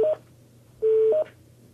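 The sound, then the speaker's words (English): Touch-tone telephone dialing as hospital staff dial into a daily morning safety call, a few short clear beeps in two bursts with a brief pause between them, over a low steady hum. “Staff members here are dialing into the daily safety call.”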